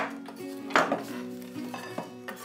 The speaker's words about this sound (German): Auch der mittlerweile kalte Karamellkrokant wird zerhackt.